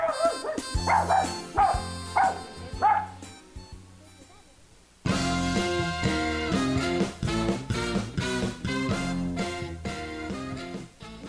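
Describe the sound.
Dog barking: a few short, bright barks and yips repeated early on, then a lively music track carries on loudly with further dog-like sounds mixed in.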